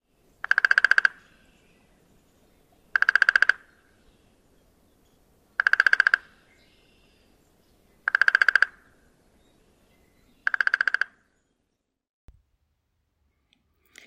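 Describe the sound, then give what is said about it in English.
Downy woodpecker drumming, a relatively slow drum of about 16 beats per second: five short, loud bursts of rapid knocking, evenly spaced about two and a half seconds apart, with near silence between them. “Let's listen to the downy woodpecker drum.”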